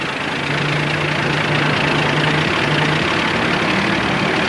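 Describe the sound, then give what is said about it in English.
Heavy bulldozer engine labouring as the massive dozer crawls back up a dirt bank: a loud, unbroken low rumble carrying a steady droning tone, with no voices. “The dozer slowly moves back up the bank toward them.”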